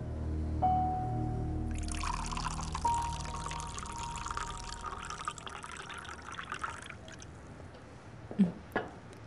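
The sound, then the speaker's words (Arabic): Juice is poured into a glass in one steady, splashing stream that runs for several seconds over a faint low hum, then stops. “بتحبي العصير مو هيك؟ بحبه كتير، شكرا. صبي.”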